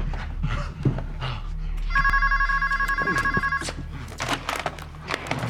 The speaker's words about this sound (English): She clumsily picks up the phone.